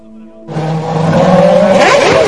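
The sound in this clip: A car engine in Cuba bursts into life and revs hard, the motor noise jumping up suddenly and then climbing in pitch as the revs rise, loud and with no voices over it.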